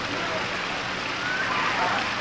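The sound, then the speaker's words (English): Steady rain makes a continuous, dense hiss that stays even and fairly loud throughout, with no distinct individual drops standing out. “Yes, it's raining.”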